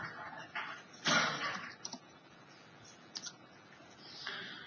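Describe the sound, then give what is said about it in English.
Faint typing on a computer keyboard: a few sparse, soft key clicks and taps at irregular intervals over a quiet background. “I can simply type in a new item.”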